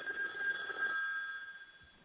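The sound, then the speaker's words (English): A telephone rings with an incoming call: one sustained electronic trill lasting about a second, then fading away. No voices are heard. “Oh, we got a call. We got a caller? We got a caller.”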